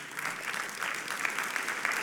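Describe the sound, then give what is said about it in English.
Steady applause from an audience at a stage event: dense, continuous clapping at an even, moderate level that runs unbroken for the whole stretch, with no clear voices on top. “I'm so glad that you're busy clapping”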